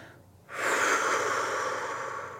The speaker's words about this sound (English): And as you exhale, release tension, release thoughts, release anything that feels heavy and sticky.